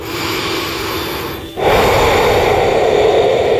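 A person takes a deep breath in: a long, airy rush of air that pauses briefly at the midpoint, then resumes fuller and louder.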